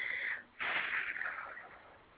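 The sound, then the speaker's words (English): A person blows out a breath during a guided meditation exercise, a brief airy exhale, a short pause, then a long breathy blow that slowly fades. “Now open your crown chakra and allow your breath to merge with the universe, and then blow out that divinely inspired breath.”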